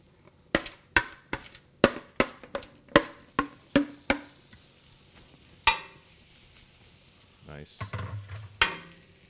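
Okonomiyaki pancakes frying on a griddle: a series of sharp metallic spatula taps and clicks, quick at first and then more spaced out, over a low background sizzle.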